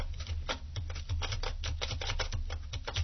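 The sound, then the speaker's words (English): Rapid typing of an email address on a keyboard: many quick, light keystrokes in a dense, steady patter with no talking. “Email address, and I'm going to type mine in.”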